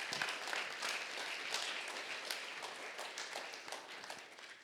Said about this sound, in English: I give them a hand again.